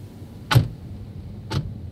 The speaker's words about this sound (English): We pile back into the Forest Service Jeep and head just a few minutes down the mountain to a completely different ecosystem.